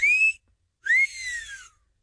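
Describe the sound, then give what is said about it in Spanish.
A person gives a catcall whistle in two parts: a short, bright, high whistle, then a longer one that rises sharply and slides back down, alone against silence. “Bueno, antes que nada, el chiflidito para sus nenas.”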